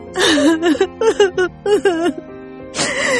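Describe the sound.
A woman bursts into tears, sobbing with a trembling, wavering voice in short broken bursts that end in a longer wail.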